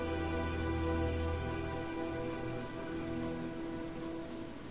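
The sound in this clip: Steady rain streams down a window: an even, continuous hiss and patter that holds its level throughout, with no voices.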